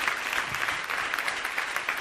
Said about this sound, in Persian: تشویقش کن